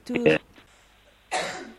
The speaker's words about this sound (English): I cough too, like you. Yeah. Sorry, I've made you cough.